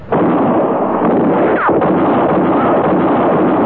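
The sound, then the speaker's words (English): A gunshot sound effect for a radio drama hits with a sudden loud blast, then a dense roar of noise that holds at full strength for several seconds without fading. “You killed me! I'm shot! It was Katie Fulton's shot that missed Matty Silks and hit Court Thompson.”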